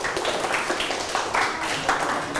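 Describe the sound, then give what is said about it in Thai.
Applause from a group of people during a group activity, a dense, steady patter of many hands clapping at an even, moderate loudness for the whole stretch. “ปรบมือครับ”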